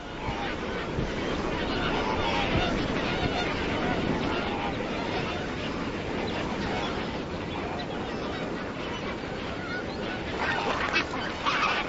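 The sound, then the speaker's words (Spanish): A vast flock of lesser flamingos at mineral-rich, volcanic Lake Bogoria keeps up a dense, continuous din of honking and gabbling calls, steady and unbroken throughout. “Bogoria, brindando un hábitat ideal a bandadas aún mayores de flamencos enanos. En el punto álgido de la temporada puede haber más de 1 millón de aves.”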